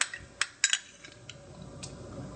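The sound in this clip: A utensil stirs a thickening sauce with vegan butter in a pan, giving a few sharp, bright metallic clinks early on that fade to a soft, quiet scraping.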